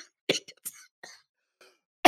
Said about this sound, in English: I can't stop laughing. People, that's why I'm coughing